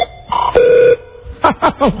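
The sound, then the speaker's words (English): The CTU phone ringtone from the TV series 24 plays loudly: a couple of electronic tones and a held note, then three quick warbling chirps. “That's the CTU phone. I love that. So again. I like it. This is out. This. That's a ringtone.”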